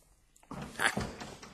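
A window being opened: a short sliding thud begins about halfway through, followed by a brief, softer scraping rustle as it settles.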